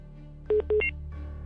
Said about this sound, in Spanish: Puedes seguirle marcando, corazón, no te preocupes, gracias.